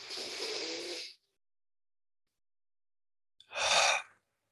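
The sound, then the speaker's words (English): A deep breath drawn in through the nose for about a second during a breathwork exercise, then silence, then a shorter, fuller exhale out through the mouth. Both breaths are heard alone, with no talking. “Take a big breath in through your nose and then breathe out through your mouth.”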